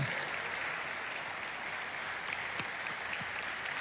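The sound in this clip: Applause from a church audience during a service as people stand to be recognised: continuous, even clapping from many hands, faint and steady throughout.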